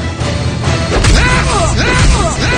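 A powerful kick to a man's crotch at 22 miles an hour, delivered by an MMA fighter without a cup. It lands as two loud, heavy thuds amid swooping whooshing tones.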